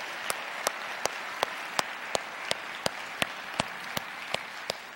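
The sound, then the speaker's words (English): Applause welcoming guests at a church service. A steady run of about thirteen sharp, evenly spaced claps stands out above a softer, continuous bed of clapping. “If The Bridge is your home church, can we put our hands together this morning and welcome all of our guests today?”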